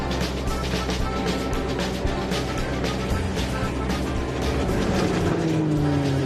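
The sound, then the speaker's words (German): A nut harvesting machine that sieves out twigs is driven at full throttle, giving a loud, continuous mechanical roar with a dense, rattling texture that holds steady throughout. “Und jetzt, Leute, darf ich auch mal fahren. Ich gebe mal Vollgas.”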